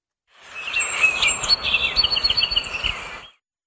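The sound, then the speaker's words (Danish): Song of a song sparrow, a small North American brown bird with a grey, brown-streaked head: bright chirps followed by a run of rapid, high trilled notes, clear and fairly loud with no talking. “Det er lyden af en nordamerikansk sangspurv, en lille brun fugl med et gråt og brunstribet hoved.”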